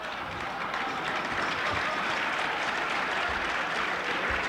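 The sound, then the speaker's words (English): Sustained audience applause at a televised debate, a dense, even wash of clapping that keeps a steady level from start to finish. “Please, would you hold your applause until the end of the program?”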